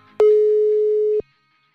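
A telephone tone sounds while a call is being dialed: one flat, steady, mid-pitched electronic tone lasting about a second. It cuts off sharply into silence.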